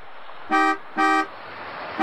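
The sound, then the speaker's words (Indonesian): A car horn honks at a young man on a motorcycle: two short, bright, steady blasts at an even pace, then a third that starts just before the end, over a constant hiss of road noise. “coba kamu klaksonin deh”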